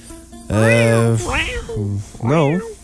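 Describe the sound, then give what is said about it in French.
A person imitates a cat meowing, making a few drawn-out, whiny mews that bend up and down in pitch. The mews come in close succession and are the only sound heard. “L'étude des miaulements de chat, mettons?”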